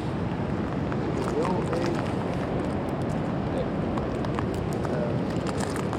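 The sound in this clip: Footsteps crunch over fossil shell material in a park, a dense, continuous gritty crackle that keeps a steady texture throughout.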